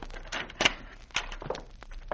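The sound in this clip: A house door opens as people walk in: a few dull thuds and sharp clicks in quick succession, fairly faint, with no talk over them.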